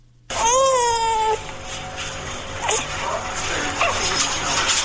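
A newborn infant cries in one drawn-out wail. It is one of twins just separated by surgery at a hospital in Kabul. The cry is loud and fairly high-pitched and breaks off after about a second, leaving a noisy background.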